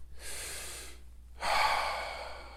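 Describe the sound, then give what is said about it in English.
A slow, deep breath taken alone and quietly: a soft airy inhale, a brief pause, then a longer, slightly stronger exhale that gradually fades. “Right now, I want to invite you to just take a deep breath in and out with me.”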